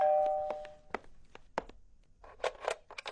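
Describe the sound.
A doorbell rings with a clear, sustained chime that fades out within the first second, followed by a scattering of soft clicks and knocks.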